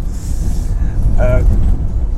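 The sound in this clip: A car drives along the Via Cassia near Rome, giving a steady low road rumble with a brief tonal sound in the middle.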